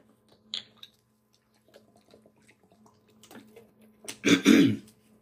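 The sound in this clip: Throat clearing, one rough, loud burst near the end, with a brief fainter throaty sound earlier and quiet rustling between.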